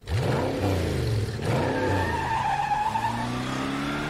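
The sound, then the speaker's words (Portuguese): A furious driver's car skidding, a movie-style sound effect: tires squeal loudly over a revving engine, the screech sustained and shifting in pitch throughout. “Sem a magia do cinema, isso seria só um motorista furioso.”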